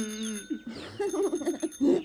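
A bicycle bell rings on a shiny red bicycle fitted with a luggage rack, giving a few quick, bright bursts of metallic ringing over a short tonal opening.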